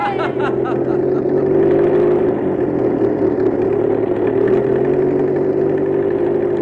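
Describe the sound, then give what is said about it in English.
A car engine drones steadily as the vehicle drives up an old mountain road, a constant mid-pitched hum that holds level without clear revving. “There they go, boys and girls. Sam and the crew are driving up the old mountain road.”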